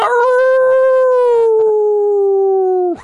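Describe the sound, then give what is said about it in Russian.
Loud howl of a dire wolf over a forest: one long, sustained, harmonic-rich tone that drifts slowly lower in pitch across about three seconds before breaking off abruptly. “Вой, что был раз в 10 громче и мощнее, пронесся над лесом.”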